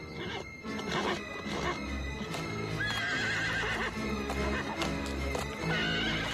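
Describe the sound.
A horse whinnies loudly over steady background music, with a couple of shrill, wavering neighs standing out clearly above the musical backing.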